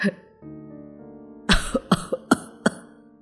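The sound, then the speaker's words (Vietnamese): An old man coughs hard in a rough, hacking fit of six sharp coughs in quick succession. “ông cụ Giả ho lên sù sụ”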